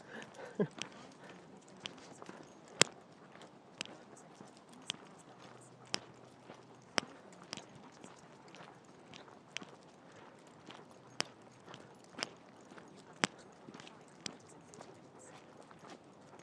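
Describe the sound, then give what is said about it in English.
Footsteps of someone walking, a long steady series of crisp steps at a regular pace, some sharper and louder than others, over a soft low background. “Let you enjoy the sounds as I walk, as I've run out of breath to talk.”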